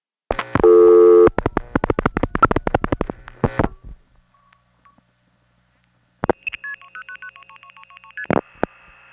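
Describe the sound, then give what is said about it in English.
A telephone call routed through step tandem switching into a Bell System 355 step office, ending on a reorder. Rapid bursts of dialing tones and clicks are followed by near silence, then a stretch of stepping tones and a few sharp clicks. “This call, even though it ends up on a reorder, really typifies the reason why I like this particular route. It has such a beautiful, wide-open sound to it.”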